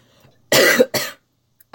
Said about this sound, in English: I can feel a cough coming on